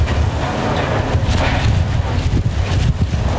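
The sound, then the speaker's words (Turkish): Strong hurricane wind of up to 165 km/h tearing across Florida, Georgia and Alabama, heard as a loud, continuous roar with rough buffeting gusts that never let up. “Saatte 165 kilometre hıza ulaşan şiddetli rüzgar çatıları uçurduğu elektrik hatlarını söktü.”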